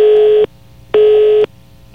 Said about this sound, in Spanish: se nos cayó la llamada, pero seguimos en línea